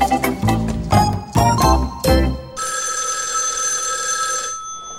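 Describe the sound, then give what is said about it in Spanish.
A telephone rings in a doctor's office with a quick series of loud, jangling bell bursts, followed by a steadier sustained high ringing tone that then stops. “La puerta. No, es el teléfono.”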